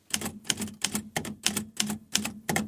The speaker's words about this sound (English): Let's hear it one more time. Ready? Here's how you type cannot.